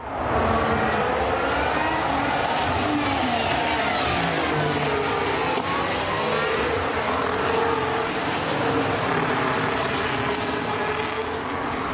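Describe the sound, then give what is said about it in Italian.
Formula 1 race cars on the formation lap before the start of the Chinese Grand Prix, heard as a loud, continuous, dense engine drone with shifting tonal whines that holds steady for the whole stretch, with no voices. “Qualche istante ancora, sentiamo i rumori di sottofondo nel giro di formazione prima della partenza del Gran Premio della Cina.”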